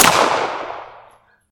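A single gunshot in a dramatic confrontation: one sharp, loud, full-bodied blast whose noisy tail decays over about a second before silence.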